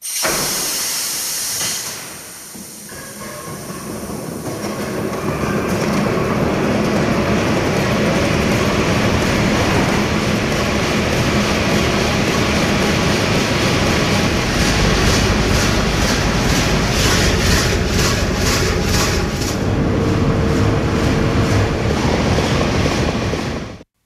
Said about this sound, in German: Das war tatsächlich das Anlassen unseres 1000 PS Deutz-Dieselmotors